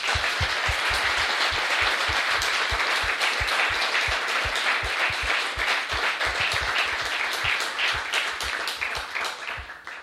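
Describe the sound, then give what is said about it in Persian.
An audience applauds, a dense and loud wash of clapping that holds steady for the whole stretch and thins slightly at the close. “میخوام برای اونها یه دست بلند بزنم.”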